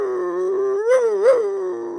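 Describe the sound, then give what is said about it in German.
A female dog howls on a walk in one sustained, tonal wail that holds steady, then swells upward in pitch twice before settling back, alone and fairly loud. “Und plötzlich fängt sie sogar an zu jaulen.”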